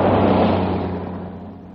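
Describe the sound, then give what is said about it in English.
A car's engine gives a steady low hum beneath a broad rushing noise that gradually fades over a couple of seconds. “Oh, here, another car coming.”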